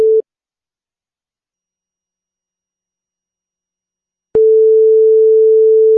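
Telephone line tone while a call is being placed: a short beep, a long stretch of silence, then a steady, low, continuous tone that runs to the end. No voices are heard.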